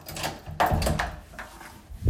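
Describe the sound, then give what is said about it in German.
A garage door is opened, giving a few knocks and a rattling, scraping movement of moderate loudness that fades toward the end. “Dann aber Tür vergleichsweise schnell schließen. Garagentür öffnen.”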